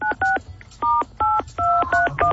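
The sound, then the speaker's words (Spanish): Touch-tone beeps ring out as a telephone number is dialed. A quick, irregular series of short dual-tone keypresses shifts between pitches, with brief gaps between groups, and sounds clearly alone. “Otra vez está marcando, señor. Sí. Ya había marcado.”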